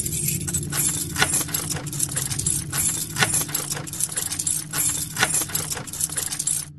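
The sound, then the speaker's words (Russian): Bunch of keys jangling as someone tries one key after another in a door lock: many light metallic clicks and rattles in an irregular rhythm, fairly faint, with no voices. “нервно теребил связку ключей, подбирая их к замку. «Ну давай же, открывайся!» ворчал мужчина, вставляя очередной ключ в замочную скважину.”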